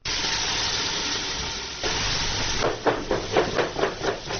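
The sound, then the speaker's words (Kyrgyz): A pregnant woman forcefully chops carrots while cooking in a crisis-centre kitchen. A steady hiss runs throughout, and a quick series of hard rhythmic knocks comes in during the second half. “Жинин сабизден чыгарган өңдү тарсылдатып, бар күчүн ошол жактан чыгаргансыйт.”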